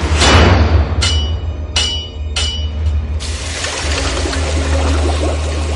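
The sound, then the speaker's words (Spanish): A blacksmith's hammer strikes red-hot iron in a few loud, ringing blows spaced under a second apart over a low steady hum. A sustained hiss then follows and lasts to the end. “Más tarde, un herrero forja un hierro candente.”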